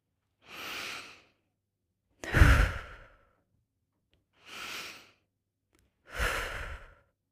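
Slow, deep breaths in and out during a breathing exercise that pairs rising onto the toes with rocking back onto the heels: four clear breaths, evenly spaced and separated by silence, with no talking.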